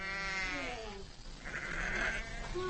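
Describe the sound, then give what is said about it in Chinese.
A ewe bleats in pain while giving birth, letting out several wavering, harmonic, strained cries, fairly loud and nearly continuous, with a last cry rising near the end. “分娩中的母羊非常痛苦。在几个小时的挣扎和嘶嚎后，”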